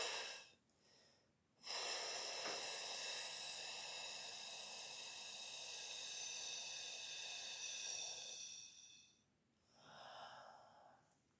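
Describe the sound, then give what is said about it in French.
Long, steady controlled exhalation during a breathing exercise: a constant, even airy hiss lasting about seven seconds, with shorter breaths just before and after it. “L'idée, c'est d'avoir un flux d'air qui est constant, pas trop fort, mais toujours au même débit, et de bien relâcher toute la sangle abdominale quand tu as fini de souffler”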